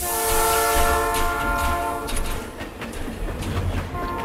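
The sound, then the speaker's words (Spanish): A train leaving a station: a sustained horn blast over a low rumble, fading into the clatter and rolling noise of the moving cars. “De nuevo el Chano se escapa en el primer tren que sale de la estación en dirección desconocida.”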